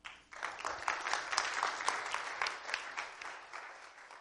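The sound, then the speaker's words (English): Moderate applause from a church audience welcoming a visiting pastor to preach. Many hands patter steadily, swelling early, holding, then thinning slightly, with no voices over it. “I like the semi-enthusiastic applause. I don't know if that means if you're genuinely excited to have me here or you're just being nice”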